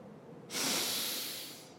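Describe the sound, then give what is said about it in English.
A slow breath drawn in through the nose. It is one steady, airy hiss that starts sharply after a brief quiet moment, holds, then gradually tapers off. “First, let's breathe in slowly through our noses.”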